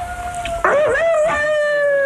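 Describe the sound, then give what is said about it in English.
A seven-week-old puppy howls in one long, wavering tone that holds steady, then breaks into a louder, rougher warble with yelping inflections before it settles back into a sustained whine. “You'll have to excuse the dog, listeners, but he doesn't know we're on the radio. How old is this dog? Seven weeks”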